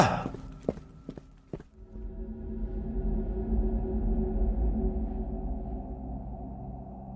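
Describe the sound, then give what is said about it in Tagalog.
Footsteps of a person walking on and on toward the top of a plateau, a few hollow, separate thuds at the start, followed by a steady low rumbling drone with no further distinct steps. “Patuloy pa rin siyang naglakad ng naglakad.”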